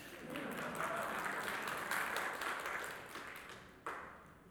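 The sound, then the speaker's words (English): An audience gives a hand clap, a steady crackling rush of applause that gradually fades, broken by one sharp thump shortly before the end. “for all of you who like to wear pumps, give a hand clap.”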